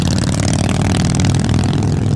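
A custom-painted motorcycle loaded with aftermarket parts revs hard, its dense, rough engine note loud and unbroken throughout.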